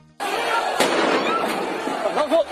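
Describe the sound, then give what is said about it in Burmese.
Gunfire in the streets of Yangon, Myanmar, during a crackdown on protests: a few sharp cracks over a dense background of crowd noise, with voices audible in the mix. “အခုဆိုရင်ဒီလိုပြစ်ခတ်တံတွေဟာစစ်ပွဲတွေနဲ့ဝေးကွာလွန်လာတဲ့ရန်ကုန်မြို့ကန်တွေနဲ့တခြားမြို့တွေကလူမှုအတွက်နေစဉ်ကြားနေရတဲ့တံတွေဖြစ်နေပါပြီ။”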